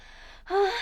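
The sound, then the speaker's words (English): A single short, heavy gasping breath, a quick audible intake that swells in the second half, alone without talk. “But you'll need to be like breathing heavy now.”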